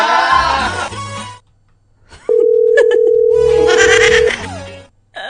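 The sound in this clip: A telephone rings with no answer in a comedy radio skit, heard as one long steady ringing tone lasting about two seconds, set between louder, busier passages.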